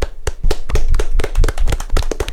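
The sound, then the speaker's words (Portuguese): Clapping for Igor Nascimento at a live guessing game: many sharp, loud hand claps in a fast, fairly regular rhythm, with no voices heard over them. “Palmas pro Igor Nascimento”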